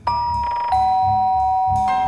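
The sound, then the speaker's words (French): A two-tone ding-dong doorbell chime rings at an apartment door on West 77th Street in New York. A higher note falls to a lower, sustained one, then another chime begins, loud and clear with nothing else over it. “Et le lendemain, Herbie Hancock sonne à la porte de Miles Davis sur la 77e rue Ouest.”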